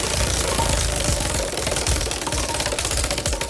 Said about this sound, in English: We're going to spin and see what it lands on for you, okay?